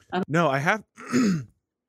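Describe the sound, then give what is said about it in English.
Throat clearing from someone who has been choking on a sip of energy drink, made up of a few loud, voiced, gravelly bursts separated by short pauses, with no other sound around them. “I took a sip of this energy drink at the beginning of this podcast, and I have literally been choking on it the entire time.”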